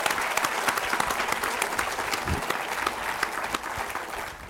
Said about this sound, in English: And we have a few very special guests with us here. Special guests! Make a little noise, all right! Yes!